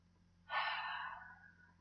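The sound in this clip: A single deep breath: a soft, breathy rush that swells quickly, holds, then tapers away over about a second, faint and alone.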